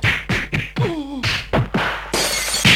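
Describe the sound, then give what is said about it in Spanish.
Drinking glasses breaking in a rapid series of sharp crashes and shattering bursts, many impacts following one another with brief bright tails. “No, los vasos no los rompa”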